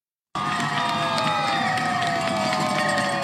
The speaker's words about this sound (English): That's the sound of teachers celebrating in Newton, Massachusetts after a deal was reached to end their just over two-week strike.